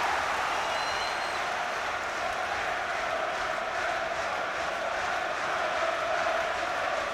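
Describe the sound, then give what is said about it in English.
Football crowd roaring at a Wolves home FA Cup match as a corner is won. A dense, steady wall of cheering holds at an even level for the whole stretch, with no distinct peaks. “And Neto conducting the crowd.”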